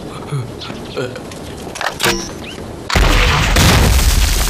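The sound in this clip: A gun being fired at a target that is missed: a few dull booms spaced through the first half, then a sustained loud burst of rough noise, with voices talking around the shots.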